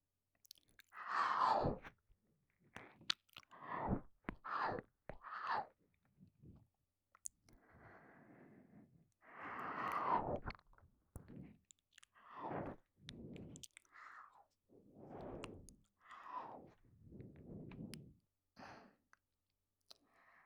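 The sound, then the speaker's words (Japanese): Soft ASMR ear-eating mouth sounds, with many irregular bursts of wet nibbling, chewing and small clicks separated by short silences, all quiet and close. “私がお耳食べてあげる。”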